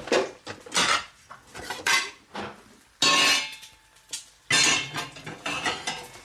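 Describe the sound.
Plates clatter and clink while nasi goreng is plated and served, with many sharp, irregular ceramic and metal knocks and scrapes in bursts separated by brief pauses.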